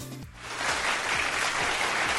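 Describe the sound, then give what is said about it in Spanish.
A crowd at a music event breaks into applause, a broad, steady wash of clapping that swells after a brief quieter moment and holds at a fairly loud level throughout, with faint music underneath at the start. “Aplausos para ahí.”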